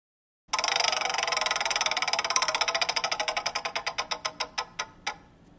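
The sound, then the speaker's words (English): A spinning prize wheel ticks rapidly after a brief silence, its sharp clicks gradually slowing and spreading apart until a few last isolated ticks as the wheel comes to rest. “we're going to spin the wheel and get you a category”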